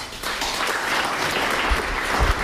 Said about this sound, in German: Darum bitte ich jetzt gleich um einen kräftigen Applaus für Jürgen Osterlo